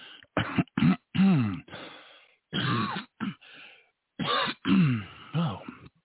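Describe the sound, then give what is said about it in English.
Throat clearing from a single person: a long series of harsh, rasping bursts and grunts, loud and uneven in rhythm, with short pauses between them and no words spoken. “got a little frog in my throat”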